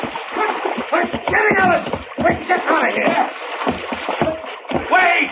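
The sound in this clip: A skiff pushed over a ship's rail splashes into the water. Splashing and sloshing mix beneath loud, urgent shouting voices that dominate the scene.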